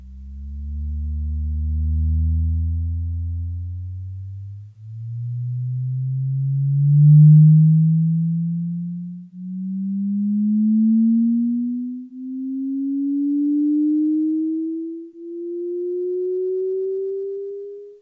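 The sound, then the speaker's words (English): Sound waves recorded in a perfect fluid, rendered as a smooth pure tone that glides steadily upward from low to mid pitch, swelling and easing in about five broad pulses of loudness. “That was the sound of a perfect fluid, and it was recorded for the first time ever by a team of scientists at MIT.”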